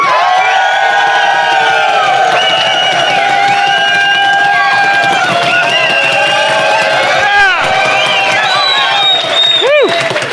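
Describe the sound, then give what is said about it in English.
Large audience cheering at Cowboys Stadium in Dallas during a live show, a loud, sustained roar of crowd noise with whoops and shouted voices throughout. “This is a huge audience.”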